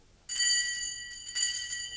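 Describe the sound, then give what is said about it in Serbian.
A doorbell rings at a house door in St Petersburg at four in the morning. A bright, high metallic tone rings out at a steady pitch, dips briefly, then rings strongly a second time. “Ovo je prvo zvono u životu Fjodora Mihajlovića Dostojevskog. Doziva ga k slavi. Drugo će na ovim vratima zazvoniti 4 godine kasnije”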